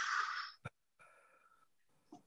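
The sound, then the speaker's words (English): A person takes a deep breath in and out during a guided relaxation exercise: a soft, airy rush of breath, a brief click, then a quieter, slightly wheezy tonal breath, all faint with no talk. “let's have you take a breath in and a breath out.”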